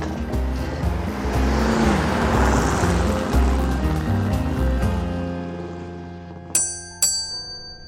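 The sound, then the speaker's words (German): Loud rushing roar of a car driving fast, a broad continuous rumble that gradually fades away, followed by two brief, sharp ringing tones near the end. “Soll ich langsamer fahren? Nein, mach inne. Ich will so schnell wie möglich nach Venedig.”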